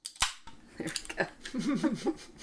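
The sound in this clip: A beer being opened gives one sharp, loud click-pop at the start, followed by softer rustling and a faint voice.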